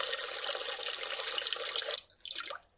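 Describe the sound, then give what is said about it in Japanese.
Lotion and hot water pouring into a washbasin, a steady splashing flow that stops about two-thirds through, then a few soft gurgles and drips before fading, all fairly faint. “まずは、ローションとお湯を洗面器にたっぷり入れて、”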